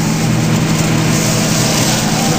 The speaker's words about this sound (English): They want us to pull over. Victor? Yeah. Two priests driving a Ferrari.